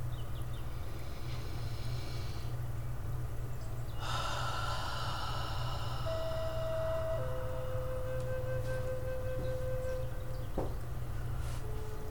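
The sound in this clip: A slow, deep breath is drawn during a guided meditation, a soft airy rush that swells suddenly and then lingers, with no talking.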